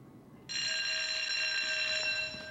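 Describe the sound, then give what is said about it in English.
An electric bell rings in a prison cell block. It is a single, continuous, high and bright ring lasting about two seconds, with no other sound. “After ringing the bell, a guard stands at the end of the main cell block.”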